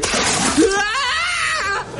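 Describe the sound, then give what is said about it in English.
Water thrown at a chimney lands with a splash, while a shrill voice cries out over it and brief talk frames the moment. “Right, I've got the water. Well, try and get it inside the chimney this time. Right, here goes then.”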